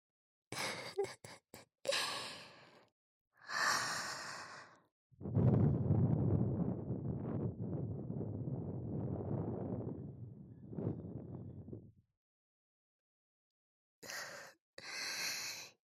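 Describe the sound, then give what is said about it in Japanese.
Breath blown softly into a listener's ear: one long, airy, hushed exhale lasting several seconds, with short breathy puffs before and after it and silence in between. “君の穴の中、私の吐息で満たされて、赤くなってるのがわかるぞ。もっとふうふうしてやろうか。”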